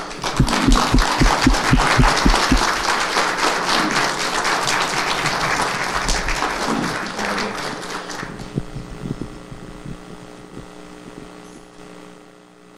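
Church audience applauding to welcome a guest minister at a Sunday morning service: dense, steady clapping for about eight seconds that fades out, leaving a low sustained hum and soft held tones.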